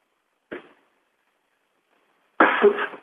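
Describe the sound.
A person clears their throat twice: first a brief, soft rasp, then after a pause a longer, louder and rougher clearing. No talk is heard.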